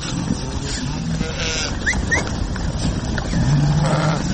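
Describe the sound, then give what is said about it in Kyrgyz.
Sheep bleating in a flock of about five hundred on mountain pasture. A few short, wavering bleats sound over a steady, noisy outdoor background at moderate loudness. “Бияк койлорум меники.”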